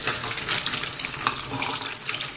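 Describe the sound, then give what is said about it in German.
Tap water runs over seeds in a yogurt cup as they are rinsed, giving a steady rushing, splashing stream at an even level without talk. “Und das muss man wegspülen. Jetzt tun wir die also da gut abspülen.”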